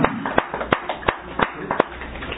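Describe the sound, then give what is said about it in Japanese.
Applause celebrating an 83rd birthday at a place of worship, a crowd clapping steadily with dense overlapping claps and a few sharper accented slaps standing out at a moderate, even level. “盛大な拍手でお祝いをしております”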